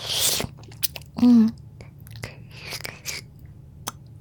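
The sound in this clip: Wet mouth sounds of someone licking a large salty hard candy, a few short smacks and slurps scattered among soft breathy noises, with one brief hummed tone.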